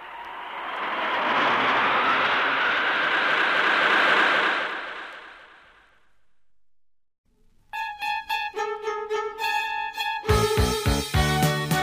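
Roar of an airplane taking off, a broad rushing engine whoosh that swells and holds loudly for several seconds, then fades away, followed by a stretch of bright music.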